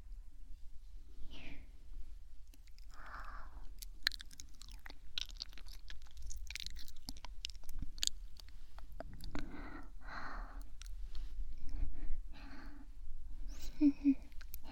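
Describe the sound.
Soft, moist chewing of cake, many small irregular bites and mouth clicks spread across the whole stretch, faint and close, with no talking over them.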